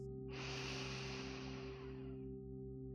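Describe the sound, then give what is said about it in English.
Slow, deep inhale through the nose during a guided meditation, a soft, steady breathy hiss that swells and then tapers over a few seconds, over a low sustained drone. “Together, let's take a slow, deep breath in through the nose.”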